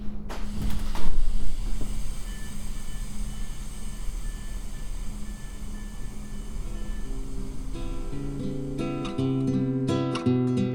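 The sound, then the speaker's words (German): Steady hiss and low hum of a Deutsche Bahn train standing at a station on a route via Oldenburg toward East Frisia, with a brief knock near the start and layered ringing tones joining near the end. “Aber jetzt erstmal Halt am nächsten Geisterbahnhof. Hier aus dem Geisterzug der Deutschen Bahn.”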